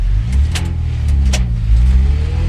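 A car engine runs as the vehicle drives off, a steady, loud low rumble with a broad hum throughout and no voices.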